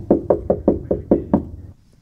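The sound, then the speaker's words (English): Knocking on a door in a novelty pattern: seven quick, evenly spaced raps, loud and sharp, alone with no talk, then silence. “So I'll play you three door knocks, okay? Okay. So here's door knock number one. Yep. Oh, it's a novelty, so I immediately think that's Adam. But yeah, it's too early to call. Door knock number two.”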